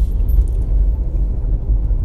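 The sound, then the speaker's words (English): A Jeep drives along a road: a loud, continuous low rumble of engine and road noise, steady and unbroken, with no talk. “I am currently in my Jeep driving to the department store to get a lumber.”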